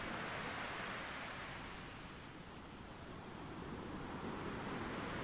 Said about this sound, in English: You are at the eye of the storm, the waves hissing and crashing elegantly on the parallel shore.